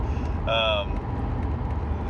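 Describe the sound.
Steady low road rumble from a car being driven, constant and unbroken, with one brief higher tonal chirp early on.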